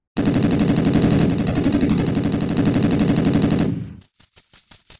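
Gunfire: a long, loud burst of rapid automatic shots lasts several seconds and cuts off abruptly, followed by a handful of separate, quieter single shots, with no voices.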